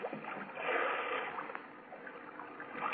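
A canoe paddle splashes through water as a radio drama sound effect, with soft swishing and sloshing strokes that swell and ebb a few times. The sound is quiet and steady, with no voices.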